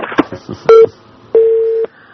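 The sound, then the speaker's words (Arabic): A telephone line signals an incoming call with two steady mid-pitched tones, a short one and then a longer one of about half a second. A few brief, indistinct sounds come before the tones. “معنا اتصال.”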